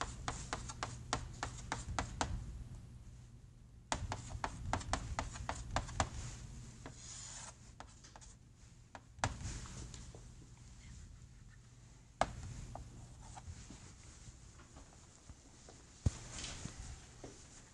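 Scratching of a pen or chalk as a math calculation is written out by hand. Quiet, irregular strokes come in several bursts separated by brief pauses, with no talking.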